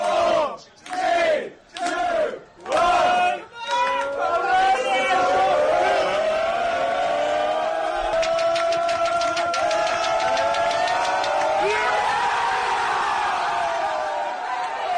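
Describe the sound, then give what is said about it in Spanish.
Liverpool football players celebrate together after the final whistle of Chelsea versus City: four loud, rhythmic group shouts give way to sustained, exuberant cheering and singing voices. “Mira, estaban los jugadores del Liverpool viendo el partido juntos y cuando pitó el árbitro en Londres el final del Chelsea City, pasaba esto.”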